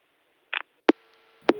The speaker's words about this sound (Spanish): Se cortó la comunicación con Juan.